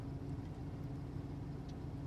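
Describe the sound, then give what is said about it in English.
A car engine hums as the vehicle drives across a street, a faint, steady low drone with no change in pitch and no voices. “So Frank and Dennis and I are driving across the street to Five Guys Burgers and Fries to have a little sustenance.”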